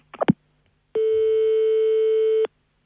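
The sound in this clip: A single long, steady telephone tone, held for about a second and a half, sounds as a call is placed to the police. A brief clatter comes just before it, and no voices are heard.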